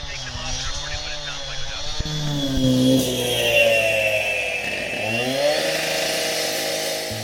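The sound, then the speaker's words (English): A saw cutting through concrete drones and whines, muffled through hearing protection, its pitch wavering up and down at moderate volume while people talk over it. “Now someone has started to saw through the concrete nearby, but the TCAPs are attenuating the sound so that Sam and Katie can still hear it, but it's a much lower volume.”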